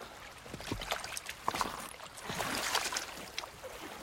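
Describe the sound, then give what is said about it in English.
Water laps at a stony riverbank with soft, irregular splashes and gurgles. It stays quiet and uneven throughout, with no voices. “He rolls over onto his back, water lapping all around him.”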